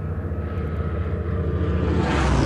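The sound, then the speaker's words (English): A Supermarine Spitfire fighter plane in flight, the type first flown in 1936, its engine producing a loud, continuous roaring drone that brightens and grows slightly louder toward the end. “another was the Supermarine Type 300, the Spitfire, which first flew in 1936. The Spitfire was a revolution, with its stress-skin fuselage and its famous broad-chord elliptical wings.”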